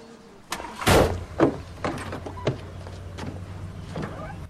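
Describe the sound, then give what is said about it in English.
A car drives off: a few sharp knocks and clunks sit over a quiet, low engine rumble that carries on to the end. “Ian McKinley and his girlfriend Erin drive off”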